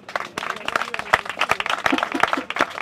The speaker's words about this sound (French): Merci, Papa Thierry, on applaudit très fort, mesdames et messieurs. Si vous aviez aimé, merci d'applaudir encore.